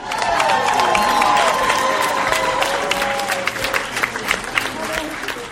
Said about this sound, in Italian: Un bel applauso, amici ascoltatori!